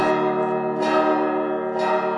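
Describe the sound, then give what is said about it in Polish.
Monastery church bells ring in a sustained, richly layered harmonic peal, with three fresh strikes renewing the tone as the ringing carries on without a break. “każdy monaster ma inną melodię i tutaj tak samo mamy też inną melodię, w miarę możliwości, w miarę dzwonów.”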